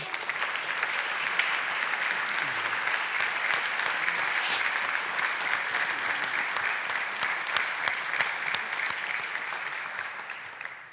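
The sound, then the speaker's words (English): Sustained applause from a church audience, a dense and steady wash of clapping hands that holds at an even level throughout with no voices over it. “Some of you are like, you idiot, stop clapping.”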